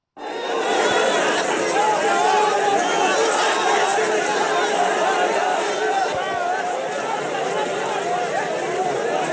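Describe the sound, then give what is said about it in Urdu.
Thousands of mourners at Zakir Musa's funeral in Tral raise their voices together, a dense, loud, unbroken roar of many people shouting and calling out at once for the whole stretch. “جمعرات کو ترال علاقے میں ہزاروں افراد نے ذاکر موسیٰ کی تدفین میں شرکت کی. اس موقع پر سوگواروں نے نعرہ بازی کی اور بھارت سے آزادی حاصل کرنے کے عہد کا”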